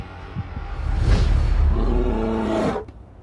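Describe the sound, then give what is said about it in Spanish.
A brown bear lets out one deep, loud roar. It swells from a low growl into a long, rasping bellow that holds for about two seconds before cutting off sharply. “Un oso pardo puede hacerte pedazos con sus poderosas mandíbulas”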